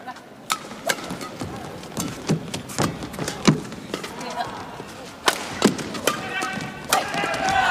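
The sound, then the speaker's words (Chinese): A table tennis serve and return during a match: many crisp, sharp clicks of the ball on paddles and table in an irregular rally rhythm, with a commentator talking underneath. “刘胜书发球，陈康乐接发球”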